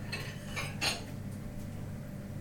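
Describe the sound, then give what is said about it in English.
Faint clinks of crockery and cutlery as a small plate is taken out in a home kitchen, a few light knocks and chinks early on, then a quiet steady hum. “I'll get a small plate out for the avocado because I only have to slice that.”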